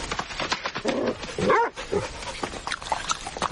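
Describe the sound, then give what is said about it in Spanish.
A dog approaching quickly, giving many short, high whimpers and yips in an uneven, eager rhythm, moderately loud and with no talk over them. “El perro se acerca veloz.”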